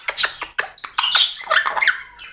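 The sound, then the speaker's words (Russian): Chirps and squeaks from a pet bird, a few sharp high calls followed by a busier run of twittering notes, moderately loud. “Аркаша, хорошая птичка, птичка.”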